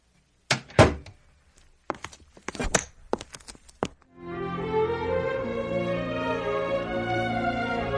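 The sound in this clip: A door is handled and opened, giving a few dull clunks and sharp clicks in an uneven sequence, followed by a steady, fuller background sound.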